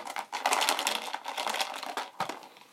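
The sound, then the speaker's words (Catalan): Small necklace beads rattle inside a homemade instrument in a quiet, dense stream of quick clicks and shakes. A few stronger bursts stand out, with no voices. “Després he posat unes boletes de fer collarets. He posat cinta rosa amb moltes ratlletes i... I com sona? I sona amb les boletes així.”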